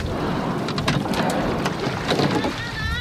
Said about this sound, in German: die 5 Startschläge, die hören wir gerade und jetzt müssten gleich die schnellen 10 kommen.